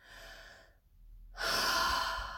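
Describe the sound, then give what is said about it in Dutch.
A deep breath in during a guided breathing exercise: a soft, airy breath, a brief silence, then a long, loud rushing inhale. “Even heel diep ademhalen. Heel diep in.”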